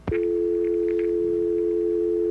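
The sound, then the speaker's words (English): A telephone dial tone sounds as one steady, continuous hum after a short click at the start, with faint background sounds underneath. “Dial tone?”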